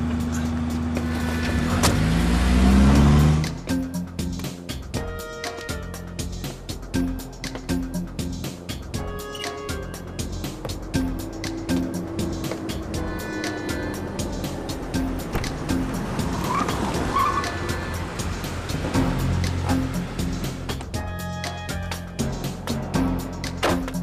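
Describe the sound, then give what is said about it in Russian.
A jeep drives slowly away with a Lada car following. A louder surge of engine and road noise comes in the first few seconds, then a steady, moderate rumble of motor vehicles continues throughout. “Джип медленно отъезжает. Мужчина в кепке выбежал из магазина. И сел в Ладу, тоже едет за ним.”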